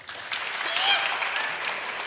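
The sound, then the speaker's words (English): Audience applause after a call to clap in a live vote for best in-game pizza, a steady, dense patter of many hands lasting about two seconds, swelling slightly in the middle, with a faint voice under it. “I like people clapping for pizza rather than clapping for disappointment.”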